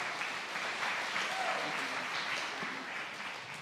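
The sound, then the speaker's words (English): A church audience applauds to welcome a guest speaker to the platform, a dense, steady clapping that holds evenly throughout and tapers slightly at the end. “So come on, put your hands together and welcome him to the platform.”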